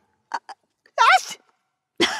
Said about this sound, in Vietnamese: Bà Tư Hạnh vừa bước vào phòng đã hắt xì liên tục